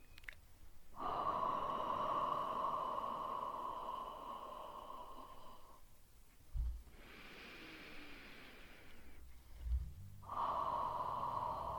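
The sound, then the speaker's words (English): Slow, deep breathing during a guided trance channeling session: a few long, airy inhales and exhales, faint and hissy, separated by brief pauses with soft low puffs of breath. “I'm going to have you just take three nice deep breaths with me”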